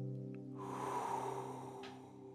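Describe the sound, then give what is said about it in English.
A deep breath taken during a guided relaxation exercise: a long, airy rush of air that fills most of the moment, heard over a soft, steady musical drone. “Let's draw in a deep breath, hold it, and then we're going to send it out.”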